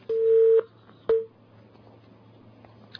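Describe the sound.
A telephone line tone after a dropped call during a call-in: a steady mid-pitched beep of about half a second, a pause, then a shorter beep, over a low hum.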